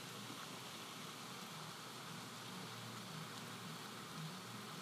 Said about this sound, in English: That's the sound of rain coming down in New Jersey, on the east coast of the United States.